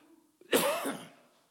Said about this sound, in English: this cough is going to drive me nuts.